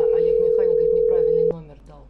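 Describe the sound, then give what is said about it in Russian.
Telephone dial tone heard while dialling a number: a steady, unbroken mid-pitched tone holds for about a second and a half, then cuts off abruptly, with a man talking over it. “Так, набираю вот, который Перейра дал номер.”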